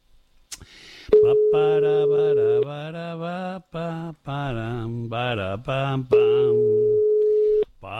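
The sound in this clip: A telephone call rings out on the line: two long, steady, mid-pitched ringback tones separated by a gap, with a melodic voice wavering in pitch between and around the tones.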